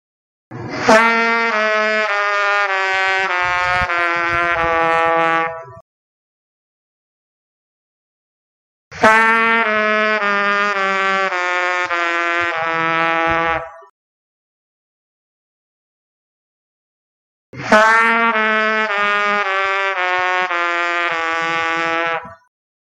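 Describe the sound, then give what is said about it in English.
A brass warm-up slurring down from low C through F sharp, played three times: each long, full-toned slurred phrase lasts about five seconds and is separated from the next by a silent pause. “My second warm-up exercise is slurring down from low C through F sharp. Once again, big sound, even try to crescendo as you go down.”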